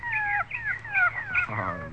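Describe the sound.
An old dog whimpering as it climbs out of a car, a run of several high, thin whining cries that rise and fall in pitch, fairly loud and close together.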